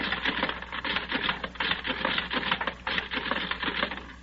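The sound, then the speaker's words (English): Punch cards run through a card-classifying machine with a rapid, continuous mechanical clatter. The dense rattling ticks come in uneven bursts with brief dips, much like a fast typewriter, with no voices. “Then I take all the cards of the men I have and run them through the machine like this.”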